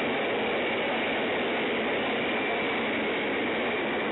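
Subway train noise coming through a phone line, a dense, steady roar that stays at one level throughout with no distinct clacks, sounding thin and muffled as over a call.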